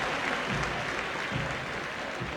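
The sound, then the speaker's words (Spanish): Stadium crowd applauding players at a football match: a broad, continuous wash of clapping with low crowd rumble swelling underneath at a few points. “saludando a la gente y, por supuesto, también agradeciendo el aplauso que cada vez fue incrementándose”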